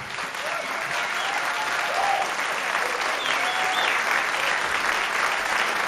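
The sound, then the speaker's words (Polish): An audience applauds with steady, dense clapping that holds at an even level for the whole few seconds. “Brawa!”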